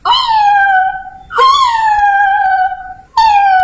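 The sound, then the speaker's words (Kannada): A human voice imitates a cat's cry with three long, wavering wails, each easing slightly lower in pitch. The third wail is cut off at the end. “ಅಂತ ಈ ತರ ಬೆಕ್ಕು ಶಬ್ದ ಮಾಡಿ ಕೂಗ್ತಾ ಇತ್ತು.”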